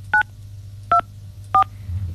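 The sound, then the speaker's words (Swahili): Three telephone keypad tones, evenly spaced and each short and steady, sound while a call is placed, over a low constant hum. “Haya, moja kwa moja nampigia.”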